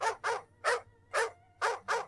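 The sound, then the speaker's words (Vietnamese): Two guard dogs bark madly, six sharp, frantic barks in quick succession, fairly faint and with no talk. “Hai con chó giữ sủa điên cuồng lao tới phía tường.”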